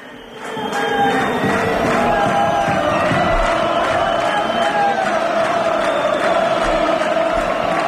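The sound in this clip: Football crowd at Castalia stadium in Castellón roaring as the first half ends, a loud, steady wall of voices with sustained chanting tones running through it.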